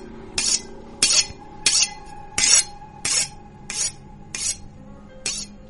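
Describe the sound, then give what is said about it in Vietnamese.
A knife being sharpened, eight rasping, scraping strokes in a steady rhythm, each a bright, hissy burst with a slight metallic ring, repeating roughly every two-thirds of a second. No voices. “Lúc thì là tiếng va chạm của kim loại đập xuống mặt gỗ, lúc thì là tiếng mài dao leng ca leng keng”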